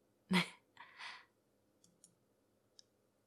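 Soft computer mouse clicks while browsing on screen: a few short, faint clicks amid near silence, the first noticeably louder than the scattered later ones.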